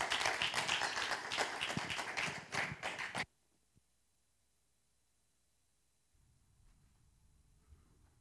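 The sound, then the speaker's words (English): A church audience claps to welcome a guest speaker, about three seconds of loud, dense applause that cuts off abruptly, leaving near silence and then a faint low rustle. “Can we give her a big RBC welcome? Let's go.”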